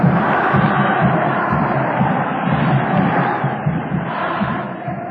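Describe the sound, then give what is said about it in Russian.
Flamengo fans at Maracanã stadium sing their victory chant near the end of a football match, a dense, steady roar of massed voices that holds loud throughout. “Матч идет к концу, судья уже посматривает на секундомер, и Торсида Фламенго запевает торжество и победу песню «Пора уходить», традиционный на Маракане гимн победителя.”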